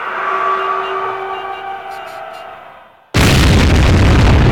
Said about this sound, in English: Which is exploding at the bottom. Oh, it's a rocket. It's taking off.